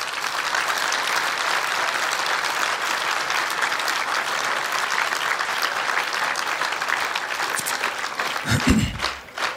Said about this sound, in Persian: برای سلامتی خودتون یه دست مرتب هم بزنه.